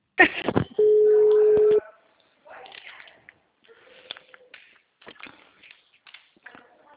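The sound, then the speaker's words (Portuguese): A telephone tone sounds while a call is placed: a short noisy burst, then one steady low tone held for about a second. Quieter scattered clicks and rustles follow. “Mentira, eu tô fazendo a ligação já.”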